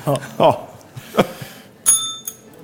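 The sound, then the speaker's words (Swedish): A bright bell-like quiz ding chime rings out clearly after a few moments of talk, holding steady high tones as it fades, with voices around it. “Dålig plinga. Vi tar den igen.”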